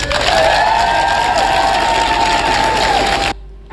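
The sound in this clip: Supporters cheering and clapping as Andy Burnham and his wife arrive at Downing Street: loud, sustained crowd cheers and applause that hold steady, then cut off abruptly just before the end.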